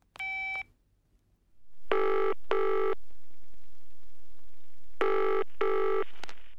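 A telephone gives one short beep as the number is dialled, then rings in two double-ring pairs, each pair made of two quick loud buzzy bursts, separated by a steady hum.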